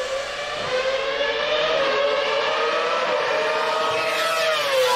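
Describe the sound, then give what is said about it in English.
A Formula One race car engine gives off a loud, continuous high-pitched whine rich in harmonics, holding steady before the pitch dips slightly near the end as it downshifts. “Wait for the last downshift, and we're live again”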